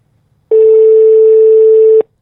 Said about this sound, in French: C'est le téléphone de réservation. Voilà, nous avons testé. Il faut insister, parce qu'il y a beaucoup de demandes.